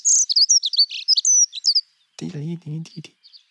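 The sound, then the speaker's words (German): Dunnock song: a rapid, high-pitched warbling phrase of quick twittering notes lasting under two seconds, followed by a brief voice. “wir hören noch mal rein in die schöne Heckenbraunelle.”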